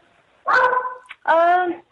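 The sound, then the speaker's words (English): A beagle barks twice, each bark a drawn-out, tonal bay lasting around half a second, loud and clear with a short pause between them. “That's my dog barking, by the way. I hope you heard that. I have a beagle.”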